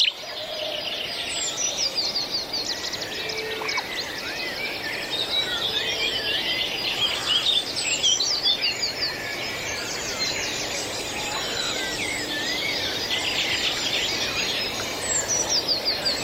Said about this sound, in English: the beautiful sounds of early morning bird song a unique collaboration with the European Broadcasting Union